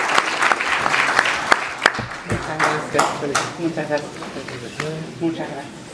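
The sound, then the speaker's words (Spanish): Applause at a national communication awards ceremony: a crowd claps in crisp, uneven bursts that gradually thin out, while people begin talking over the fading clapping. “Adelante, fuerte el aplauso.”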